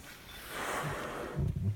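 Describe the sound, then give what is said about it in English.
A humpback whale's breath, heard as a faint, breathy whoosh of exhaled air. It swells through the middle and ends with a few low, rough snorting pulses. “The call of an Adelie, a humpback's breath at the bottom of the world.”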